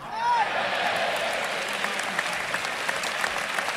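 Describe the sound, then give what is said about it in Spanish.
Crowd applauding at a bullfight, an ovation for the completed tercio: dense, steady clapping that swells in the first half second and then holds at an even level through the whole clip. “se cumplimentó este tercio que el público ovaciona”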